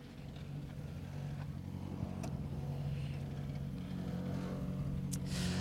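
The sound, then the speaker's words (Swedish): The engine of a borrowed rally car drones as it arrives at the end of the second stage of a home rally. The low rumble builds slowly and steadily, with no talk over it. “Andra sträckan avklarad för hans del också. Hemmatävling, lånad bil. Han kommer fram mot oss här.”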